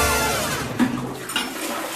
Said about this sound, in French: On va bien jusqu'au bout de la chasse d'eau.